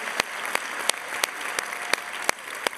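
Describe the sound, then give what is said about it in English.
A church audience applauding: steady, even clapping with a few sharper individual claps standing out at regular intervals. “What's up, everyone? Let's put our hands together, Rock Church.”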